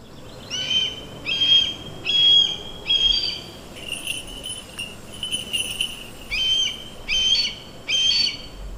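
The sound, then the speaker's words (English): Red-tailed hawk, a raptor used in falconry, giving a series of short, high, harsh cries repeated at a steady pace, with a quieter, hissier stretch in the middle, over low background noise. “That is the sound of a red-tailed hawk, one of the species of raptor birds used in falconry, an ancient way of hunting.”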